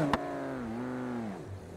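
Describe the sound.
Car engine held at full throttle during a driving-game run chasing 300 km/h, a steady droning tone with layered harmonics, dipping slightly lower near the end, heard alone after a brief click at the start.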